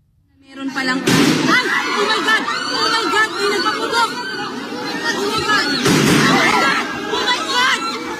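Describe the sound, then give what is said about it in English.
Gunshots ring out during a manhunt as troops try to arrest a fugitive at the Philippine Senate: two sharp bangs several seconds apart cut through loud crowd commotion and shouting voices. “Officials have not revealed who fired the shots, but Mr. De La Rosa escaped.”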